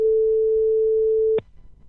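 A telephone line rings for a scheduled phone interview, a single steady tone held for over a second that cuts off abruptly with a click as the line is picked up, leaving faint low background noise.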